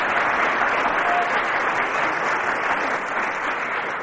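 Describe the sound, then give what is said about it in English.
An audience gives sustained, dense applause, a steady wash of many hands clapping at even loudness that eases off slightly toward the end. “The cheers from the audience.”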